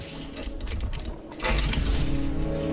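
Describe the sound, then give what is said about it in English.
Rattling, mechanical clicking of a locked door's handle as someone tries it. It sounds as a steady metallic clatter that grows louder partway through. “He tries the door, but it's locked.”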